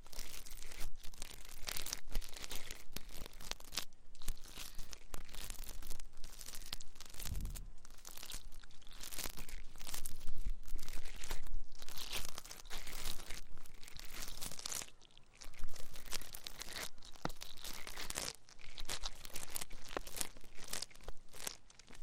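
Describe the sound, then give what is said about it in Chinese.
Ear-picking ASMR: close, continuous scratchy crackling and rustling, dense and fairly quiet, with small bursts of louder crinkles and no voice. “其实啊，掏耳朵的话可以使人非常放松的”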